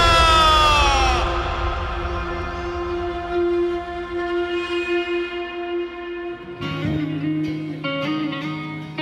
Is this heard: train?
yes